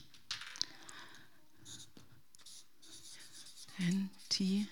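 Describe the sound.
A word is written by hand, giving faint, scratchy strokes in short bursts, with a few soft voiced sounds near the end.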